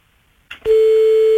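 A telephone line tone sounds while a number is being called late at night. A click and a brief burst come first, then a loud, steady mid-pitched tone holds unbroken to the end.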